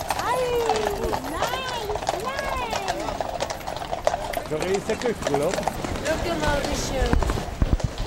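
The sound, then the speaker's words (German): Harnessed horses clip-clopping through a city street in a mounted musicians' parade, rapid hoof clops beneath dense overlapping voices. “Jetzt sind die Rösser fertig angeschirrt. Die Musiker kommen aus den Umziehkabinen raus. Es geht los. In zwei Reihen reitet die Gruppe quer durchs Kleinbasel, von der Messehalle zu den Kasernen über.”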